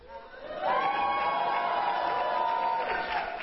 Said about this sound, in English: Can I hear a loud shout of praise to the Lord God Almighty?